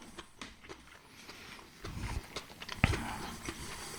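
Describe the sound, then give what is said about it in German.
Someone eats a spring roll: soft, crunchy bites and chewing sounds, a few sharper crunches standing out, all fairly quiet. “Ich muss kurz meine Frühlingsrolle aufessen. Die sehr lecker ist.”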